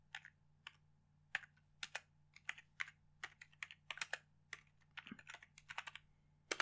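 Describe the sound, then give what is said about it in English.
Typing on a computer keyboard at an awkward angle: many faint, clicky keystrokes in uneven bursts and quick runs, with no voices. “It's a weird angle to type on.”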